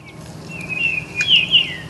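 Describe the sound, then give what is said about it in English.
A Baltimore oriole sings a short phrase of clear, high, whistled notes that slur and waver, the brightest notes near the end, over a faint low hum. “Jerry Berrier points out the song of a Baltimore Oriole.”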